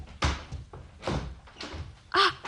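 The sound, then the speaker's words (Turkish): A door being opened after a tapping at it: a few dull wooden thuds and bumps spaced across the moment, ending in a brighter, sharper clack. “Kapıyı açayım.”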